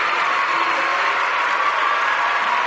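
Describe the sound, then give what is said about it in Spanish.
Applause from a crowd at a live event, a steady, dense wash of clapping that stays loud and even across the whole short stretch with no break. “fuerte el aplauso para Nahuel”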